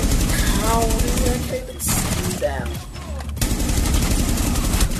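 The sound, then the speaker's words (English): Rapid gunfire from a Rainbow Six Siege first-person shooter match rattles on in dense, continuous bursts beneath a man's talking, with only a brief dip before the shooting resumes loudly. “While playing a recent match of Rainbow Six Siege, he came in clutch with a slick 3-kill round that put his team over the edge to win the game.”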